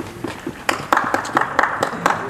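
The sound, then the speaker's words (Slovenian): Several people clap, making sharp, bright claps in an uneven rhythm over a low, steady background. “Nekdo ploska. Več ljudi ploska.”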